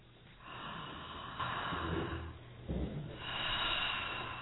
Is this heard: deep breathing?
yes